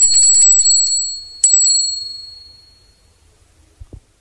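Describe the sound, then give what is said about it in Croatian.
A hand bell rings with a bright, high, wavering tone, is struck once more with a fresh clang, then fades out slowly, followed by two soft low thumps. “Časak, samo oprostite, ako li vam teško nije, ovim zvoncem pozvolite.”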